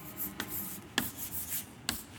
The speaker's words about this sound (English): I'll write that on the board, simony.